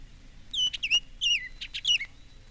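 Bird calls: a few high, whistled chirps that slide downward in pitch, interspersed with short clicks, quiet against a faint low background hum.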